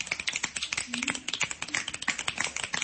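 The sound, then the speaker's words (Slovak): Finger snapping by listeners asked to snap along while folk dance rhythms are discussed: many quick, crisp clicks in an uneven stream, with a brief low voice sounding partway through. “Lúskame a tak. Tak zalúskajte pre poslucháčov.”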